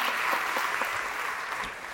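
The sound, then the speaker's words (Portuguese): Audience applause at a live talk event, a dense, even wash of clapping hands that holds steady throughout with no voices standing out. “Palmas.”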